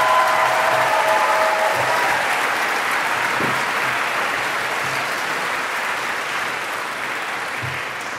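Applause fills a town hall as an audience welcomes visiting residents from Somerset, a loud, steady wash of many hands clapping that continues evenly and fades only slightly over eight seconds.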